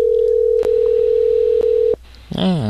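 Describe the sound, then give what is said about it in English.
A telephone line tone heard while calling, a steady unbroken hum lasting nearly two seconds with two faint clicks, then cutting off as a voice briefly begins. “I'm gonna try it one more time because I really want to use that. Okay. I'll leave a voicemail, I guess. Oh, maybe he'll answer.”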